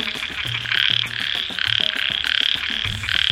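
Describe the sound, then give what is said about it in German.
Frogs croak in a loud, rhythmic chorus of many bright, buzzing calls repeating in quick succession. Lower, grunting croaks are interspersed underneath. “Welches Tier suchen wir? Ich sag es dir. Es ist der Frosch.”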